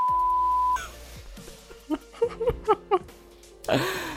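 A steady, high-pitched censor beep tone holds for under a second, then cuts off into a few short, choppy bursts of sound and a louder burst near the end.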